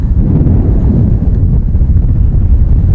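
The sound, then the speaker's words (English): Fierce, strong wind blows without a break, a loud, dense, low rumble that buffets and roars for the whole stretch, with no voices. “the wind is really fierce here.”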